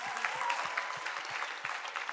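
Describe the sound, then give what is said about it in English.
An audience at a church gathering gives a round of applause. The clapping is soft and steady, with faint low thumps recurring through it and no voices over it. “Can we give her a round of applause as well?”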